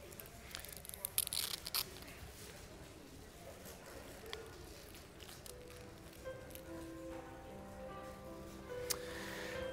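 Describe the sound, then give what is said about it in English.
Foil is peeled back from communion elements by an audience, giving faint crinkling and tearing sounds in scattered bursts, busiest early on and quieter later. “let's just peel back the foil and get ready. We're going to take this together. So just peel back the foil for your elements.”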